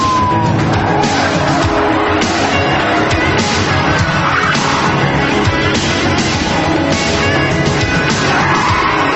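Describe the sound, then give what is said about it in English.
Police squad cars racing to a scene: a loud, dense, continuous roar of engines and road noise that holds steady throughout, with no gaps. “As several squad cars race to the scene”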